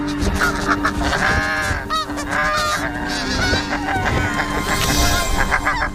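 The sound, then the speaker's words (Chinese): Snow geese, two pairs fighting over a nesting site, honk and cackle loudly in a harsh, overlapping chorus that continues throughout, with dense calling from other birds underneath. “为争夺最安全的筑巢点，两对雪燕夫妇展开了激烈的争斗。”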